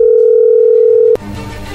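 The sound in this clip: A telephone call connecting: a loud, steady single-pitch line tone holds for about a second, then breaks off with an abrupt click into faint open-line noise.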